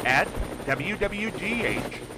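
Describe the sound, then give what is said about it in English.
Helicopter rotor noise from a news chopper flying overhead: a rhythmic low thudding with a warbling whine on top, moderately loud and continuous through the short clip. “keep an eye out for the WWGH News Chopper flying overhead”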